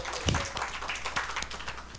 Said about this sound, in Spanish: Dele ese aplauso a Dios.